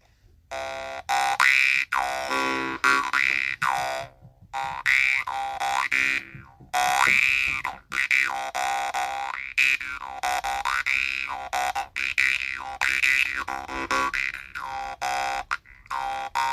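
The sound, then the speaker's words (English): A low-pitched jaw harp twangs in repeated phrases. Bright, buzzy harmonics sweep up and down in vowel-like wah shapes as the mouth cavity changes, with short pauses between the bursts. “Wait a minute. Are we talking about jaw harps today? Am I trying to sell jaw harps?”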